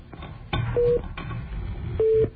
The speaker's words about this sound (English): Sure, I'll try to dial here.